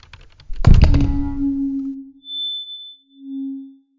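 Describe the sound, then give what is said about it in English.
Mic drop sound effect: a heavy thud with a rumbling, ringing decay, then a low humming feedback tone that fades and swells again, with a thin high whine above it. “I'm going to play a mic drop sound right here.”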